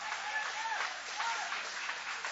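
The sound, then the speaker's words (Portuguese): Church audience applauding: a continuous, soft-edged wash of many people clapping, steady in level with small surges, no single claps standing out. “Pode tomar o vosso assento, guarda a Bíblia com carinho, e aplaude a Deus com alegria.”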